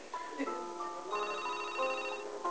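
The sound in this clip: An incoming call on a studio telephone sounds as a faint melodic electronic ringtone, a run of clear tones stepping between different pitches that repeats throughout.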